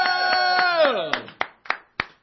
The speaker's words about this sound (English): Give yourselves a round of applause if you would.